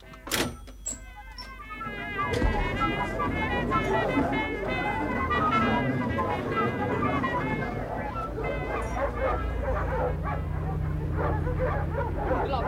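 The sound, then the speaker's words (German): Dogs bark and whimper, with a few sharp barks at the start giving way to steady, high whining and yelping that carries on throughout. “Die armen Hunde. Einfach töten.”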